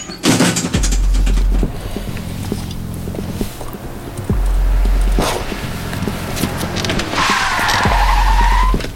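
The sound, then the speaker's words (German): A BMW drives past on a street beside a phone booth. Loud, continuous engine and road roar carries repeated deep low thuds throughout, with a brief higher-pitched whine rising out of the noise near the end. “Aus dem Augenwinkel sah ich den BMW auf der anderen Straßenseite an der Telefonzelle vorbeifahren.”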